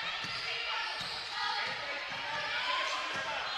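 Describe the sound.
A basketball is dribbled during a women's game, its repeated bounces thudding at a steady rhythm beneath a dense, continuous wash of background noise.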